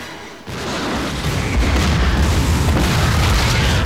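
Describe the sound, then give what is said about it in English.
A deep explosion from a bazooka-fired device going off underground in a bug tunnel, starting abruptly as a loud blast and continuing as a heavy, sustained low rumble. “Shockwaves rip through the ground.”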